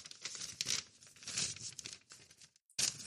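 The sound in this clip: Crinkling and tearing of a handwritten paper letter as it is handled, a continuous crackly rustle with brief louder rips, a short silent pause near the end, then rustling again.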